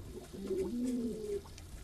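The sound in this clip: Pet bird singing softly: a faint, low warbling call of a few sustained notes that shift slightly in pitch, heard alone.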